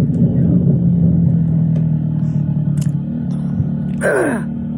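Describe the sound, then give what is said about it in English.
Engine of a Honda Shadow Black Street motorcycle while riding, a steady, loud low rumble that holds evenly throughout with no clear revving. “It's a Honda Shadow Black Street. That's what I'm riding”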